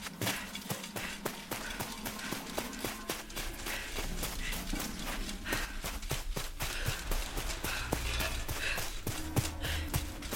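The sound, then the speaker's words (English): Footsteps of people running away patter quickly and evenly, many light steps in a steady rhythm throughout, with no talk. “I'm definitely not covering up the sound of my friends running away to safety!”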